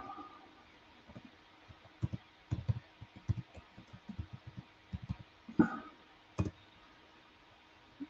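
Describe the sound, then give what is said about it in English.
Keys clatter as a place name is typed into a computer keyboard, with many quiet, irregular clicks in small clusters and no voices. “Let me type that in there real quick.”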